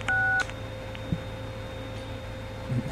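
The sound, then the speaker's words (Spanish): A single short touch-tone telephone dialing beep opens, followed by a steady low hum and faint background noise with one soft click; no ringing is evident. “Ahí está llamando el señor.”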